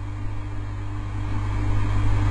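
A car engine drones low and steady as the vehicle drives, its hum growing slightly louder over the short stretch.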